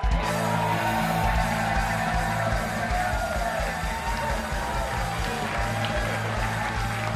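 A studio audience cheers, whoops and applauds to welcome a guest onto a Packers football show, a loud, steady roar of crowd noise that holds throughout.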